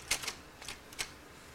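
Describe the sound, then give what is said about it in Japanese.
Typewriter keys struck in a few sharp, quiet mechanical clacks, irregularly spaced, with faint background noise between strikes. “それなんていうか知ってる？ねえ、タイプライターって言うんだよ。タイプライター、ほら面白いな。”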